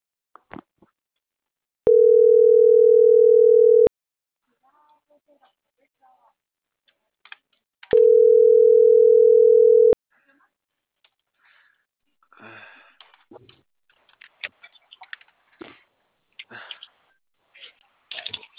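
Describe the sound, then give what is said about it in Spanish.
A telephone call rings out as two long, steady, low-pitched ringing tones separated by a pause, followed by scattered clicks and faint talk. “Voy a marcar a las de Celaya.”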